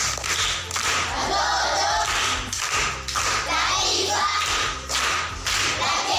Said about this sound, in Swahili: Makofi kwa shangazi.